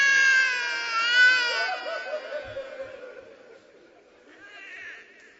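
A child cries in high, wavering wails that gradually fade into softer, broken whimpers, with a brief murmur of other sound beneath.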